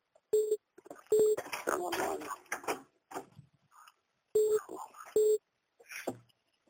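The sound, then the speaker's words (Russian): Telephone tones sound while a second line is called during a phone call: four short, clear beeps in two pairs, with muffled talking in between. “Ну, это мы звоним на вторую линию, чтобы никто ничего не пропал.”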